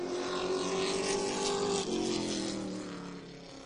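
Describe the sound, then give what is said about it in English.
Race cars of a sportsman class roar down the back stretch of a speedway track. A loud, steady engine drone dips briefly in pitch midway, then slowly fades. “41 can pull out here today in the Napa Sportsman Class at Eastbound Park Speedway. Down the back stretch.”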